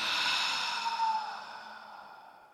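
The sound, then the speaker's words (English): A group takes a deep breath in through the nose and out through the mouth: a soft, breathy, airy exhale that slowly fades away, with no talking. “let's just take a collective deep breath in through our nose and let it out your mouth.”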